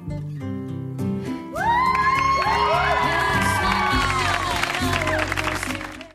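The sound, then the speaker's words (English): A studio audience at a TV show bursts into an ovation, swelling quickly into loud, sustained applause with cheers and whoops, then cutting off abruptly at the end. “Oh, this ovation is a lot less exuberant than the one that greeted Elena's tux reveal, presumably because everyone in the studio audience is crying too hard to cheer.”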